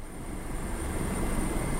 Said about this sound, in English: flying in a Coast Guard helicopter above the storm-ravaged towns of Panama City, Callaway, Springfield, and Millville